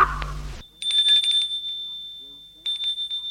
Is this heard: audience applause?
no

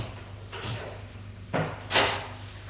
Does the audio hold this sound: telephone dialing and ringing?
no

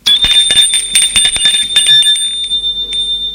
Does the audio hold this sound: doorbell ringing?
yes

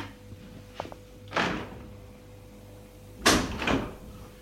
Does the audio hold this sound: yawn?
no

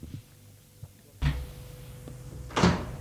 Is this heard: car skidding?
no

